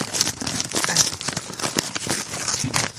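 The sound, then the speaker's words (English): Dense paper crackling and tearing comes from a sticky paper envelope being pulled open, a continuous rustle of many small crinkles with a few sharper rips. “But it's an envelope. I don't think there's powder in it. So let's open this up here. This is not the cool sounding envelope. This is the sticky one.”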